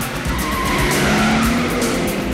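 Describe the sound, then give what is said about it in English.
Tires screech as a car reverses out sharply, a loud, continuous skidding squeal over a roaring engine for the whole clip. “The spy reverses out sharply.”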